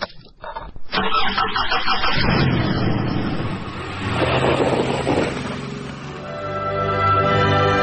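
A car engine starts. Brief clattering gives way to a loud, broad engine roar that eases, swells again, then settles into a steadier humming drone toward the end.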